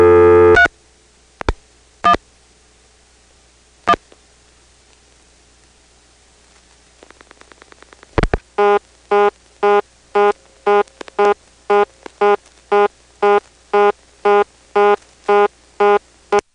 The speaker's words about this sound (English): I didn't record the dial tone timing out in 1977 in Dale City, unfortunately. But I did dial a vacant code. Let's see what that did.